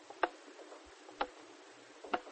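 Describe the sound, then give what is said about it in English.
An old hanging pendulum clock, handed down through generations, ticks faintly three times at an even pace of about one tick per second, with nothing else heard. “We had a hanging clock. It was an ancient clock that my grandfather had inherited from his father and his father's father straight back to the days of Count Khmelnytsky”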